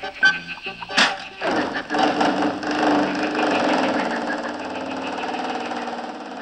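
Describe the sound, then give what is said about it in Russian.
A car engine starts and then runs on as the car drives off, a busy mechanical rumble that settles into a steady, continuous drone. “А наши друзья тем временем уселись в автомобиль вместе с бегемотом. Поехали!”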